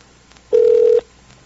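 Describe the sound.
A telephone tone sounds as a call is dialled: one steady, mid-pitched beep lasting about half a second, alone over faint background noise.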